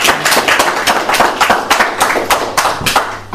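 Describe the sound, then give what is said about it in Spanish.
Applause for a champion women's hockey team at a gathering, with dense, loud hand clapping in a fairly regular beat that continues throughout, without talk. “Un aplauso para ellas, por favor.”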